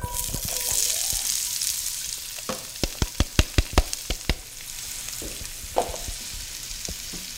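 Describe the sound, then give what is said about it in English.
Onions sizzling as they sauté in hot olive oil: a steady frying hiss, with a quick run of sharp, bright taps in the middle before the sizzle settles again. “That olive oil is probably good to go at this point. I'm going to add these onions.”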